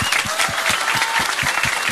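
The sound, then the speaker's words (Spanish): Applause for a team of lawyers at a council meeting, a dense, steady patter of many hands clapping without a break. “Un fuerte aplauso a todo el equipo de abogados”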